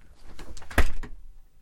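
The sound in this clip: A door slams shut with a single heavy, sharp-edged thud, set among a few softer knocks and rattles just before and after it.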